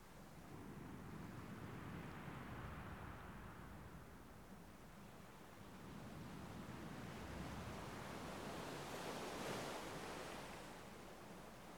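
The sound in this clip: Ocean waves wash onto a sandy beach in a soft, continuous rush of surf that swells and eases, brightening briefly near the end, faint and with no voices.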